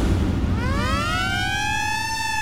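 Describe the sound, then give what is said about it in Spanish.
A siren sound effect wails upward in pitch, then holds a high, steady tone over a loud, noisy background. “Piel de gallina cada vez que se activa la sirena en Radio Disney 94.3”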